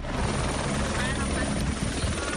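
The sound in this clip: A traffic police helicopter flies over Galicia searching for traffic offenders. Its rotor gives off a loud, steady, throbbing thrum with dense low rumble for the whole clip.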